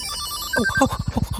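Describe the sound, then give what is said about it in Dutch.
A telephone ringtone sounds for a call in a Dutch children's story: a few short, bright electronic beeps, then a loud, pulsing ring pattern of quick repeated bursts. No one speaks. “Maar dan krijgt hij een telefoontje van Tante Door.”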